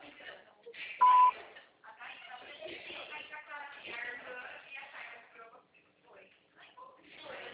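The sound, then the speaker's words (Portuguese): A voicemail beep on a Portuguese phone call, one short, steady high tone lasting about a third of a second, with talking on the narrow phone line before and after it. “Sua chamada está sendo encaminhada para a caixa de mensagens e estará sujeita a cobrar após o sinal. Após o sinal, grave sua mensagem.”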